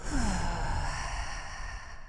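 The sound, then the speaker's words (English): A deep breath drawn in and slowly let out, heard as a steady, airy rush of breath with no talking over it. “Take a nice deep breath in and out.”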